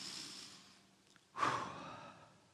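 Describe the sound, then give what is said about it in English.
A single deep breath during a sermon, heard as a faint, breathy exhale that swells suddenly midway and then trails off slowly, with no talk around it. “Let's take a deep breath after that.”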